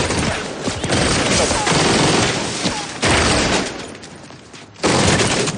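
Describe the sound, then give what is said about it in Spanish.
Loud, dense gunfire from a street shootout in a 2010 crime thriller film, as a man fires at another who ducks behind a parked car; rapid overlapping shots roar in sustained bursts, surging anew a few times. “James abre fuego contra Fraun, que se escuda tras un coche aparcado para huir de los disparos.”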